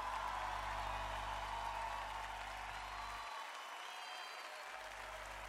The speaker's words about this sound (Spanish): Aplausos.